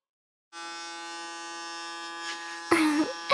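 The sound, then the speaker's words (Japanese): An electric hair clipper shaves fine downy hair. Its steady, mid-pitched buzz starts after half a second and holds evenly, then turns rougher and slightly louder near the end as the blade works through the hair. No voices. “せっかくだからバリカンで産毛も剃っちゃいますね。”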